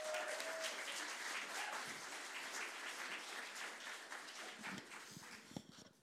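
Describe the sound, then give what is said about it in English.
Audience applause at a comedy show welcoming a comedian to the stage, a dense, steady wash of clapping that thins toward the end into a few separate claps. “Ladies and gentlemen, please put your hands together and welcome to the stage Nick O'Brien.”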